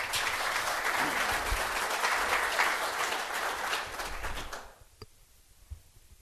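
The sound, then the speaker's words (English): Audience applause welcoming a panel, a dense, steady clatter of many hands that dies away after about four and a half seconds, leaving near-quiet with one faint knock. “So please give a warm curb welcome to our panel.”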